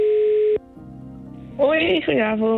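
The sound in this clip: Telephone call being dialled and ringing: a steady line tone lasts about half a second, followed by a quieter low humming tone on the line, then a voice comes in.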